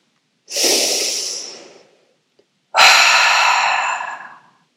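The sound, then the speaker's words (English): Breathwork breathing, an intentional inhale through the nose followed by an exhale out through the mouth: two long breath sounds, each swelling quickly and then fading away, heard alone with no talk and a short silence between them. “It's an intentional inhale in through the nose with an intentional exhale out through the mouth in a continual halo motion.”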